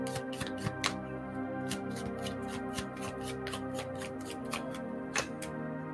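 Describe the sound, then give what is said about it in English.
Oracle cards being shuffled and pulled from the deck make many quick, crisp riffling snaps and flicks in an irregular rhythm. The sound is faint, over soft sustained background tones. “let's pull some Oracle cards and then an Angel card”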